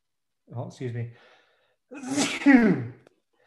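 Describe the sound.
A single loud sneeze, led in by two short voiced gasps. After a brief pause comes a forceful breathy burst, then silence.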